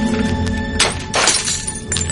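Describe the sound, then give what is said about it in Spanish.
Two sharp cracking knocks as a framed photograph, its picture partly burning, is struck. The second blow is broader with a brittle, shattering edge, over a steady tonal background. “Toma el marco, lo golpea y luego saca la foto.”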